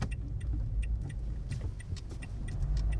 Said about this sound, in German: das ist aber ein super Auto. Wie schnell fährt das denn?